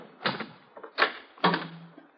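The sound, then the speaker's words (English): A door is opened in a rooming house. A few soft clunks and rattles come at uneven intervals, fairly quiet, with no talk. “While you open the door”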